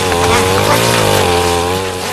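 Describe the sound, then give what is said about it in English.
A McCulloch chainsaw runs with a loud, buzzing engine drone whose pitch wavers up and down as it revs, with no break throughout. “Don't mess with a mad black woman with a chainsaw. Looks like a McCulloch.”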